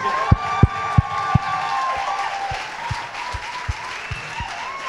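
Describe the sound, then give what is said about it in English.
A live show audience applauds and cheers, with dense clapping and whoops continuing throughout and a few louder sharp accents near the start. “Ladies and gentlemen, please can we make some noise for Mr. Mo?”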